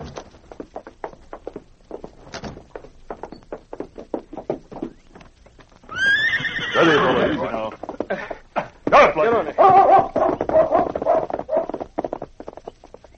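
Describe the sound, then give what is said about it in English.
Horse hooves clip-clop at a steady, unhurried pace as two mounted police officers ride away with a dog trotting ahead. Many regular hoofbeats give way to a louder, denser stretch of tonal sound over the hooves for the second half. “The two Mounties rode leisurely with King trotting ahead.”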